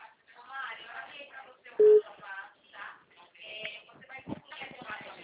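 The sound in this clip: A telephone ringback tone on an outgoing call: a single short, steady, loud beep breaks in once amid people talking.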